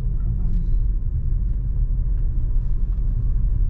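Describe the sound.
Inside a moving car on a drive through a city, a steady, deep rumble of engine and road noise holds evenly throughout.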